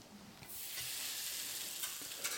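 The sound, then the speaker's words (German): Steaks hit a pan of foamed butter and chopped parsley and set off an abrupt, steady sizzle after a brief quiet start. The bright frying hiss carries on evenly at a moderate level. “Jetzt kommt noch die gehackte Petersilie dazu. So, jetzt geben wir hier unsere beiden Steaks,”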